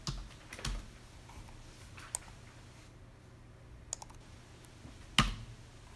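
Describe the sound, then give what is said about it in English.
Computer keyboard typing while entering a spreadsheet formula in Excel: a few sparse, crisp key clicks spaced out over a faint, steady background hum. “And we'll type.”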